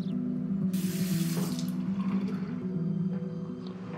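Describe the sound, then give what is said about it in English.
Water runs from a kitchen tap into a glass, a short hissing stream that rises and then eases off over a steady low hum. “Later, Sienna pours herself a glass of water in the kitchen.”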